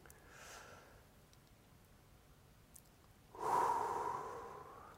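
A deep breath in and out: a soft, airy breath at the start, then after a pause a louder, longer breath that slowly fades, with no speech.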